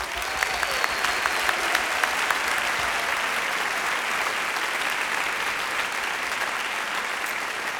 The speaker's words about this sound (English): So for these old people, can we just give a big hand?